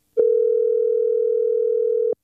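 A telephone dial tone sounds as a call is being placed: one steady, unbroken hum that starts abruptly, holds for about two seconds at constant loudness, then cuts off sharply.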